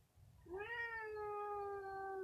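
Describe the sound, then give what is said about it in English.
A cat gives one long, fairly loud meow that rises quickly at the start and then holds a steady pitch, over a low background hum. “Yes, that is the cat.”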